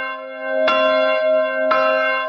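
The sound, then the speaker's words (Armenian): Armenian church bells ringing, with two clear, loud strikes about a second apart, each giving a bright metallic clang over a steady, sustained tone that hums on between and after the hits. “Այսօր հայոց եկեղեցու զանգերը արահոտից ձայնում են աշխարհով մեկ։”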